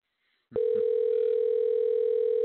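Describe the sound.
A telephone tone sounds on an outgoing call: a brief click, then a loud, steady, unbroken tone that holds for about two seconds.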